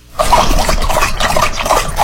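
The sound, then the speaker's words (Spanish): A dog drinking water, lapping in a quick, steady run of wet, splashy slurps that are loud and heard alone. “Es un perro tomando agua.”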